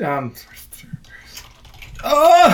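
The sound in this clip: Light computer-keyboard typing during an online trivia quiz game: a few quick, soft clicks and taps between bursts of people talking, quiet and partly masked by the voices at the start and end.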